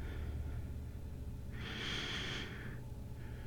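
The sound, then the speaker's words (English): A single slow, deep breath taken during a guided relaxation session rises as a soft airy rush midway through and fades after about a second, faint over a steady low background. “One more deep breath.”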